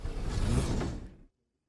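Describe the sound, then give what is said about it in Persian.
A door swings open with a creaking, grinding mechanical sweep. The sound is one continuous motion lasting just over a second, then it cuts off into silence. “لیلی تو اونجایی؟ داریم درو باز می کنیم.”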